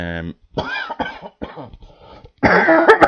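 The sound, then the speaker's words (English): A person with a recurring cough coughs in one harsh, noisy burst near the end, after stretches of speech. “I thought I'd start to lose the cough”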